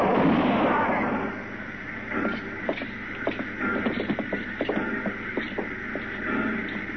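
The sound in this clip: Gunfire in a radio western drama, a burst of sharp, cracking shots and pops scattered over several seconds against a dense, noisy background.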